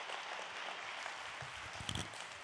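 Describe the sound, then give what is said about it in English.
Audience applause welcoming a high school director to speak, a soft and steady wash of clapping that continues evenly with a few low thumps near the end. “Would you put your hands together and welcome our high school director, Quay Jennings.”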